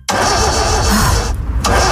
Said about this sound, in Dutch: Omdat Chrissy zo slim was om ook haar nieuwe auto bij een van de 7000 autobedrijven op Marktplaats te kopen, geniet ze nu van een auto zonder opstartproblemen.